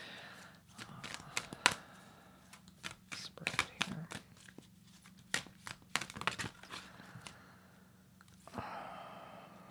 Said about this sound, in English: I'm going to reshuffle on it.